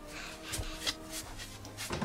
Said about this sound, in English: Can one of you gentlemen open the door for me, please? My hands are full up to my eyes here. Well, go on, lad, open the door.